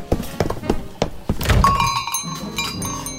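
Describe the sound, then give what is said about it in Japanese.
Footsteps of someone running up: several hard, evenly spaced thuds in quick succession, then a denser burst of movement noise. “もうそろそろお客様の方が、ああ誰か走ってくる。”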